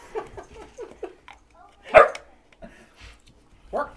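A dog barking indoors by an open door: a run of quick, light yips, then one louder, sharper bark, followed by a couple more scattered barks.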